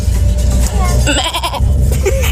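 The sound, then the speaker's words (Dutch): Woman imitating a goat bleating, her voice quavering in a loud, wavering bleat over a constant low rumble of background noise. “wist ik dus al dat ik heel erg goed een geit na kan doen. nou, hier is mijn geit.”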